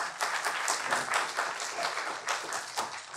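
Audience applause welcoming a professor to the podium at a Cato event: steady, dense clapping that holds at an even level for the full stretch without letup.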